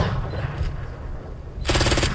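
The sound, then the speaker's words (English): Simulated explosions and gunfire-like bursts echo across flat, dusty terrain at a military training base: a loud, rough rumble of blasts, then a dense, rapid rattling burst toward the end. “Flat dusty terrain, a lone brick building, and simulated explosions can be seen at CFB Wainwright.”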